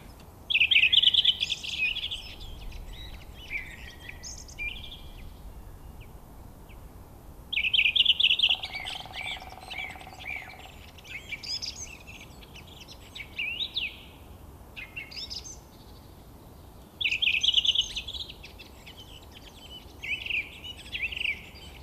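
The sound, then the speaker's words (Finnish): Thrushes singing in spring: loud, repeated bursts of bright, varied song phrases, with quieter chirps and calls filling the gaps between them over a soft, steady background hiss. “Otetaan äänite, joka on tehty 26. päivä 4. 2018. Siinä on rastaita ja harmaa päätikka sitten vähän rummottelee ja virettä jos mitä.”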